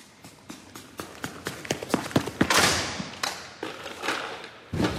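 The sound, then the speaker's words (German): A high jump attempt in which the athlete knocks the bar down and lands on the mat: a quick run of rhythmic footfalls builds up, then a broad crashing thud and rustle, followed by a few scattered knocks. “Ah, hier hat der Sportler die Sprungleiter aber gerissen.”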